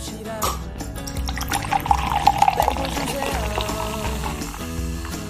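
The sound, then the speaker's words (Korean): Cola is poured into a glass, giving a fizzy, splashing liquid sound with brief bright spatters in the middle. Music plays underneath. “달달한 콜라 따라 드립니다”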